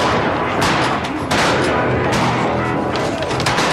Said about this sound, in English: Look, we're shooting buffalo.